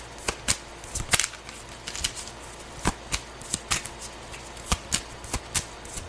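Tarot cards are shuffled during a reading, producing many quick, crisp clacks and snaps in an irregular rhythm. The cards are heard alone, with no talk.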